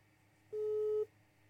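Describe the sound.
A telephone busy tone sounds after a call is rejected. One steady, clear beep lasts about half a second, and the next beep is just beginning at the end.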